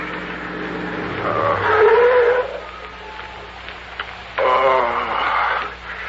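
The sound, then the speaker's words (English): A car pulls up and stops at the roadside at night: two loud swells of engine and tyre noise come a couple of seconds apart, with a quieter steady hum between them. “Pull up at the side of the road.”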